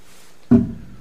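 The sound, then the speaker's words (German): A knife cuts an apple in half with a single solid thunk as the blade goes through. A short fading tail follows, heard alone in near silence. “und ich schneide jetzt diesen Apfel mal in die Hälfte”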